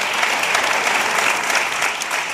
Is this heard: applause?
yes